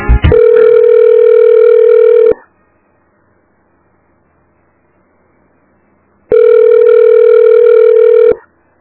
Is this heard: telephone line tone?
yes